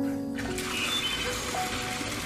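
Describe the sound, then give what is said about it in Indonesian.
Tap water running steadily as hands are washed before cooking, a continuous even rush with no breaks. “Sekarang ayo kita cuci tangan dulu sebelum masak.”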